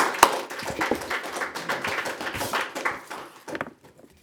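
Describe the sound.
An audience welcomes a panel with applause: irregular, scattered claps at a moderate level that thin out and fade toward the end.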